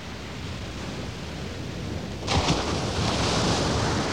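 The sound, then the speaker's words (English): Ocean surf rolls in at a beach as a continuous hissing rush that swells abruptly louder about halfway through and stays strong to the end, with no voices. “One of the things I miss when I come home from the beach is the sound of the surf. But not anymore. I brought some with me.”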